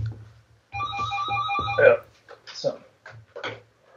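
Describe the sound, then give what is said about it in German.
A mobile phone ringtone goes off during a recorded conversation about stage presence: a bright electronic tone in quick pulsed notes for a little over a second over a low hum, followed by a voice talking in short bursts. “man sollte das Telefon umschalten. Alles gut. Bevor man in einen Podcast geht.”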